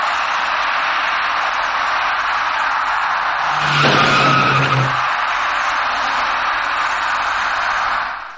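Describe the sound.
Tyre noise from a white small passenger car on a road left wet by light rain at an intersection, where it collides with an electric bicycle: a steady loud hiss swells into a harsher skidding burst midway, then settles back.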